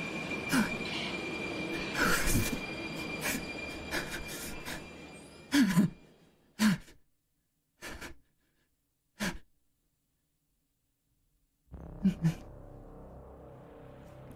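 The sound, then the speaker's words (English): A subway train's steady rumble runs through the first stretch, with thin, high wheel-squeal tones. It then breaks into a few short, loud bursts separated by silence before the rumble returns at the end. “We're in the subway.”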